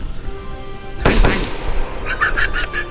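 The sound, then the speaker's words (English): Gunshot sound effect for a dramatic story: one sharp, loud bang with a short ringing tail, followed by lighter crackling bursts. “The gun explodes. What? Bullets hit the man in the face.”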